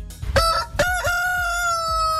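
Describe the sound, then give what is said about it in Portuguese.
An old rooster crows loudly on its own: a few short choppy bursts open into one long, steady, held crow with a bright, ringing tone, with no talking. “Esse é o meu galo velho cantando bonito demais.”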